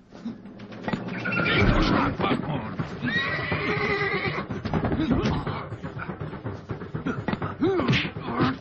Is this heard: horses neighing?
yes